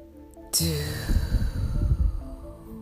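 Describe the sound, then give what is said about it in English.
A deep breath is taken during a guided affirmation meditation. A sharp ringing tone strikes first, then a long, soft, airy breath with low, fluttering rushes of air. “One more deep breath.”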